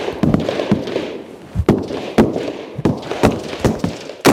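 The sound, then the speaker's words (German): Gunshots fired by civilian women (teachers, craftswomen and saleswomen) during shooting training in Finland: a series of sharp, loud cracks at irregular intervals, each a short percussive burst over a low background. “Was Sie hier gerade gehört haben, sind keine Soldaten, die Schüsse abfeuern, sondern Lehrerinnen, Handwerkerinnen oder Verkäuferinnen.”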